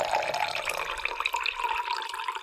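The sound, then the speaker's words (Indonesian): Hot water poured into a glass that already holds sugar: a fairly quiet, continuous splashing gurgle with a bright, bubbling texture that runs steadily for a couple of seconds. “kamu tuangkan air panas itu. Coba. Baik, Bu. Dituang.”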